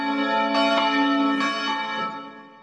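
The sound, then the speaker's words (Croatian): Church bells ring out in Novi Grad after a memorial service, with a few loud strikes over a sustained, shimmering metallic hum that fades toward the end. “oglasila su se i zvona crkve svetih apostola Petra i Pavla u Novom Gradu”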